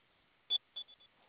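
Four short, high electronic keypad beeps as a four-digit alarm code is entered: one slightly longer, louder tone, then three quicker, softer ones in close succession.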